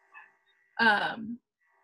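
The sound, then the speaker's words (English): A puppy barking downstairs: a faint short yip, then one louder drawn-out yelping bark that trails off into a whine-like tail, followed by quiet. “There's a puppy downstairs and he's barking”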